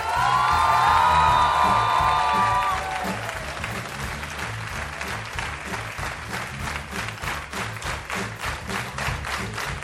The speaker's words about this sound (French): Une ovation toute particulière pour Anne-Marie Lecomte et Marie Bongiovanni.